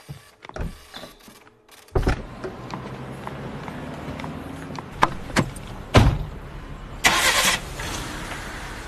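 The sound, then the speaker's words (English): Jane's car starts up as she drives her grandmother home. The engine catches and settles into a steady low rumble, broken by a few sharp clunks and a short whirring burst near the end. “Jane drives her grandmother home.”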